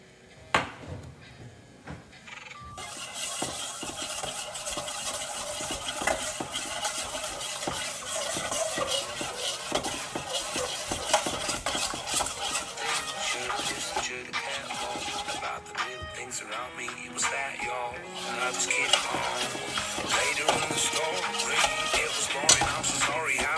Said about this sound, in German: Und das Ganze müsst ihr jetzt mit einem Schneebesen umrühren.